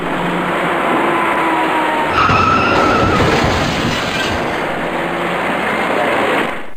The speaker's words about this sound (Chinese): 行驶在前面的车辆稳稳地减慢了车速，可从后方快速驶来的一辆深色小客却毫无措施地猛然撞上了前面的面包车